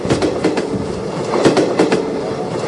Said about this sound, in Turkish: Nimada boramiz? Metroda. Ketdik.